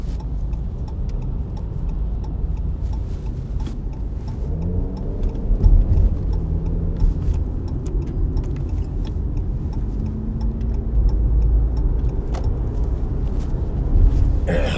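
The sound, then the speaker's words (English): Car engine and road noise while driving: a steady low rumble and drone with faint intermittent ticking over it. “Sorry guys for the dead space, but kind of driving right now. I tend to record when I drive.”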